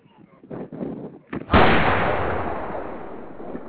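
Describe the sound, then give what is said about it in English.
A gunshot sound effect: after a few seconds of talk, one loud, sudden blast hits and then decays in a long, rumbling tail lasting around two seconds. “I got to shoot myself real quick. Sorry, Grandma. I know what you want, though. Good gospel. Yeah, I got you. Let me shoot myself, people. Y'all hold on.”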